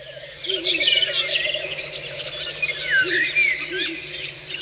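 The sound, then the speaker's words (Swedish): A Ural owl calls amid a busy chorus of high, twittering birdsong, with low hooting notes under the bright chirps, fairly loud and without voices. “Där var det en slagugla som ropade.”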